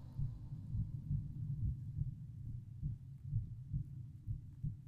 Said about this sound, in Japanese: 私の声、私の鼓動、私の中の音。